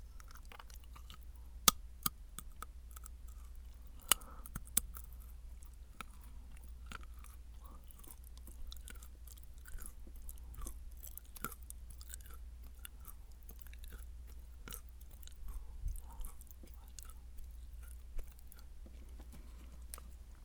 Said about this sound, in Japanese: 食べ物系 ASMR っぽくしようか。カシューナッツ、